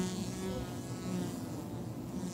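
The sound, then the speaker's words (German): Wasps invading a honeybee nest in a tree hollow produce a dense, steady buzz of many insects, a continuous droning hum that stays level and fairly quiet throughout. “Wespen dringen in die Höhle ein und rauben die letzten Vorräte.”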